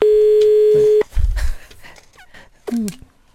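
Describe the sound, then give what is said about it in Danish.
A telephone dial tone sounds during a call: a steady, even hum for about a second, then cuts off into a few short, scattered sounds. “Vi ringer lige op en gang”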